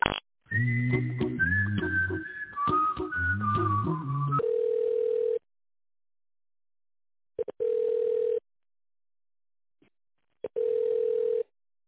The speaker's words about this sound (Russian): Здесь я вас сейчас переключу, подождите.